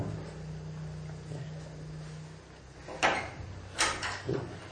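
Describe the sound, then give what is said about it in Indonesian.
A door swings open after a stretch of low rumbling background, followed by a few sharp knocks and bumps of the door moving, each brief and fairly distinct. “Lawang sing dibuka mas.”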